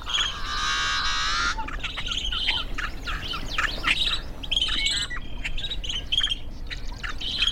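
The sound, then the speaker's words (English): Yellow-headed blackbird song opens with a loud, harsh, buzzing drone lasting about a second and a half. Many rapid high chirps and squawky, scratchy notes follow, with other faint calls underneath. “a yellow-headed blackbird song.”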